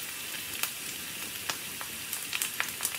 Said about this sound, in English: Meat sizzling on a grill might be oddly satisfying